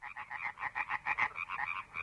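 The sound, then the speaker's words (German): Frogs croak from riverside meadows on a still evening, a dense rapid chorus of pulsed, rattling calls repeating many times without pause. No voices are heard. “Von den Uferwiesen am Fluss klang das Quarren der Frösche herauf.”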